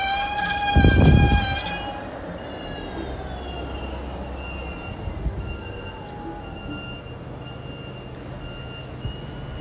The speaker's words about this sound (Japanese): 今ちょっとピーピーピーピー言っていたのはバスが止まる音ですね。